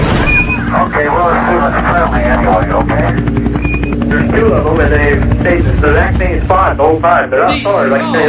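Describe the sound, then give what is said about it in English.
An aircraft engine drones steadily overhead beneath voices talking throughout, a low continuous hum that stays level in loudness for the whole stretch. “Oh my god, I hope that's a plane. Oh Jesus, please be a plane.”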